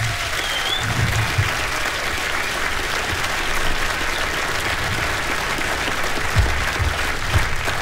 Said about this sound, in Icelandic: Jóhannes og félagar Slow Train, gefum þeim gott klapp allir hérna.